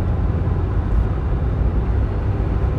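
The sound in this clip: Car driving along a road, heard as a steady, loud low rumble of engine and tyre noise with no distinct events.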